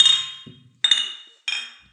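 Glasses clink together in a toast among friends drinking beer: three bright, ringing chinks, each fading out quickly, with a short pause between them and a faint low murmur under the first gap.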